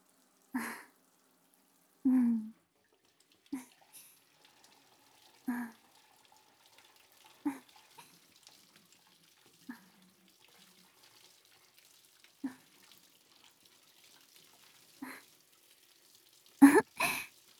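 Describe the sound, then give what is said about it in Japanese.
Water rinses shampoo off a child in the bath, heard as a series of short, soft splashes and pours spaced a second or two apart. Quiet stretches fall between them, and a louder splash comes near the end. “じゃあ、シャンプー流しちゃうね。”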